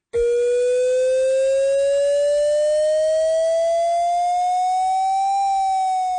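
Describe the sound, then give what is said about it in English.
A city civil defense warning siren sounds during Montreal's annual test: one continuous, loud wailing tone rising slowly in pitch for about five seconds, then dipping slightly near the end. “do not be alarmed if you hear sirens blaring today. It will sound like this.”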